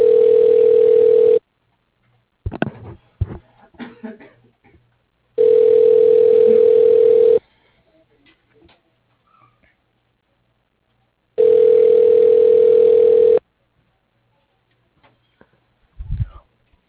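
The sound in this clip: A telephone ringback tone sounds while a call is being transferred. Three steady, identical tone bursts come at even intervals with silence between them, and a few faint clicks and rustles fall in the gaps.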